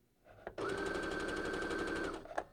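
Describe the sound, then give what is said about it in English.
A Sophia sewing machine starts stitching at once: a soft click, then a fast, even mechanical whir held at a steady level for about a second and a half before it stops, followed by another click. “It immediately began sewing. And I'm just going to put the microphone toward it a little bit just in case we can't hear it. So it immediately begins to sew.”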